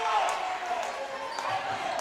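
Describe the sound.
Basketball dribbling during a game, a few dull bounces largely buried under a busy crowd din.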